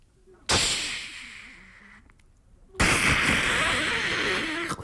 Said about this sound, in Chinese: 咚啪啪啪啪啪，噼啪噼啪噼啪，叮当当，鞭炮齐鸣。